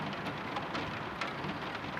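Rain falls in a steady, dense hiss with no clear individual drops and no voices, holding an even loudness for the whole moment.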